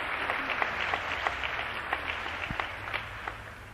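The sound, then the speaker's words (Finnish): Applause for a church choir: a steady wash of many hands clapping with dense, irregular crisp claps, at moderate loudness throughout, with no voices. “Varmaan annamme näille ystäville aplodit.”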